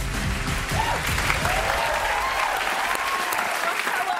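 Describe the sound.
Audience applause welcoming a game show contestant: dense, steady clapping from a crowd that holds at an even loudness for about four seconds.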